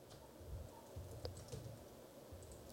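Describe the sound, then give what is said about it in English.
Faint, irregular clicks come from typing a comment on a computer keyboard, soft taps scattered over a low background hum. “Let me type you a comment.”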